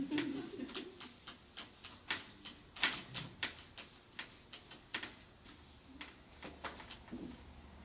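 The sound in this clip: Eraser wiping written work off a board, a long run of short, dry scrubbing strokes in a fairly steady rhythm, each a brief crisp burst, with no talking.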